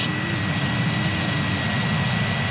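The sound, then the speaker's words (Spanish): Roar of a Vega C rocket lifting off from Kourou, French Guiana, on the SMILE mission: a loud, steady, dense low rumble that holds without a break. “Es el despegue del cohete Vega C de la base de Kourou, la Guayana francesa, de la misión SMILE”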